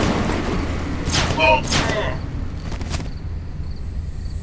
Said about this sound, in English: That was some shooting.